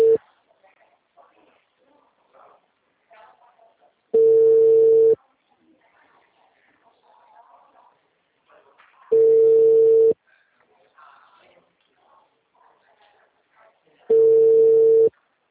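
Telephone line tones heard on a call: three steady, one-second tones spaced about five seconds apart, with faint low sounds in the quiet gaps between them.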